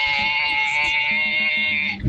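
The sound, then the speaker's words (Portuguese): A human voice imitates a goat's bleat with a long, wavering, nasal cry, then switches to a brief, lower calf-like call at the very end. “Tá aí, imitou um bezerro também no final.”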